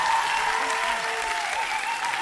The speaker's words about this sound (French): on peut quand même applaudir